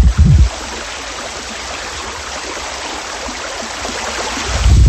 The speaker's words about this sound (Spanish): Espero que se haya escuchado. Estamos caminando, como decimos, al lado del río Baliñadares, haciendo esa ruta de los molinos.